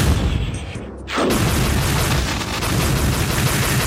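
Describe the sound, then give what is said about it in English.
Magic bolts shot from staffs in the video game Heretic, a dense, continuous barrage of noisy crackling bursts that briefly thins out near the start and then resumes at full, steady loudness. “Yeah, no guns, but the shooting was mostly from staffs. Yeah, like magic bolts and stuff like that.”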